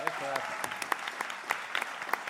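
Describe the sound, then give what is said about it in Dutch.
Short audience applause for a singer at a history talk: a brief patter of sharp, scattered claps throughout, with a voice heard briefly near the start. “Mag ik nog een klein, kort applausje ook voor Laurens Luiten.”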